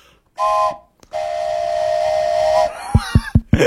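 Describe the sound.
Steam train whistle sounding one short blast, then a long, steady, loud high tone, followed by a few sharp heavy thumps.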